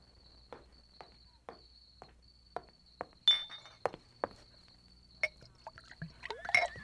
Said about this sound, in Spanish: ¡Mi botella! ¡Mi botella de tequila!